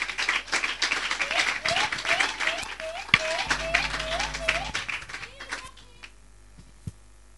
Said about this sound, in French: Est-ce qu'on peut acclamer et recevoir Gildas?